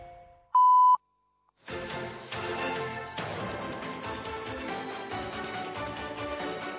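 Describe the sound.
A single steady electronic beep marks the 13:30 time signal on Argentine national radio. The tone is short and high, then silence, then music starts and continues loudly.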